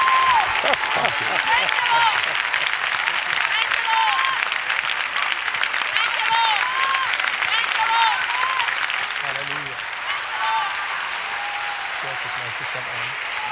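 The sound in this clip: An audience applauds to welcome a visiting bishop at Chicago Living Word church, with sustained, even clapping under voices, tapering slightly toward the end.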